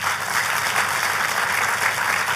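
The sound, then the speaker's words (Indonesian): Applause for a pastor during a church service: steady, even clapping from a crowd, moderately loud and unbroken, with no talk over it. “Tapi boleh gak sih kasih tepuk tangan untuk gembala sidang,”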